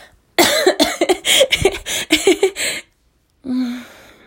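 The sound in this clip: A person coughs after choking, with a rapid burst of many harsh, rough coughs. After a short silence comes one more hoarse, voiced sound.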